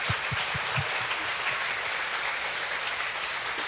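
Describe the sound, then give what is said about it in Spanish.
A gathered audience applauds at a Thanksgiving church service, a dense, steady clatter of many hands clapping at even loudness throughout with no voices over it. “Now give yourselves a hand. Ahora dése un aplauso.”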